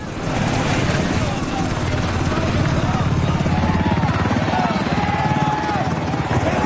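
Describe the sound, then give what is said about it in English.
A military helicopter lands in front of the US Embassy in Mexico. Its rotors throb in a rapid, steady chop over a whining engine, loud and constant, with voices underneath. “A military helicopter lands in front of the US Embassy in Mexico.”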